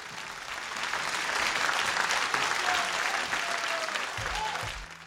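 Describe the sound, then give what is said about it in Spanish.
Audience applause greeting a guest at a live interview, a dense patter of many clapping hands that swells quickly, stays loud and steady for several seconds, then thins out near the end. “Un aplauso para Mariana Pineda.”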